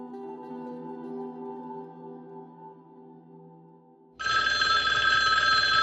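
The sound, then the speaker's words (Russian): School bell ringing for break: a loud, continuous electric ring cuts in abruptly near the end, after a quieter sustained tonal sound fades away. “Прозвенел звонок, и началась перемена.”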